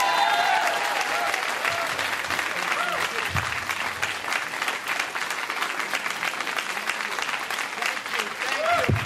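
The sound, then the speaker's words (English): An audience breaks into a huge round of applause for a performer at a comedy show, dense and sustained clapping that holds steady for about nine seconds, with a few brief shouts mixed into the crowd noise. “none of this comes off my time. The huge round of applause.”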